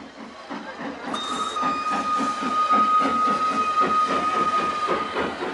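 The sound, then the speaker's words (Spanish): A train pulls in to a station where a large crowd waits. A steady rumble with rhythmic clatter builds, and a sustained high whistle-like tone joins after about a second and holds to the end. “El tren se detiene entre la gente.”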